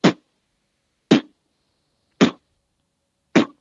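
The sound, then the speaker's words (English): Four beatboxed bass drum kicks made with the lips, each a short, low, bassy thump with a quick decay. They are evenly spaced about a second apart, with silence between them and no other sound. “So the bass drum kick sound is done at first with the lips, although it's more about mouth shape. And it should be low and bassy, and it sounds like this.”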